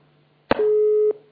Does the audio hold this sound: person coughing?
no